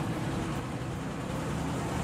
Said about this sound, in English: The bus arrives.